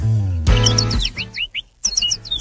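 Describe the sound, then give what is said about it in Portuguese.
A small bird sings quick runs of high, bright chirps, loud and clear, with a short break in the middle before the chirping starts again over a low background hum. “Vamos acordar que o passarinho já tá cantando.”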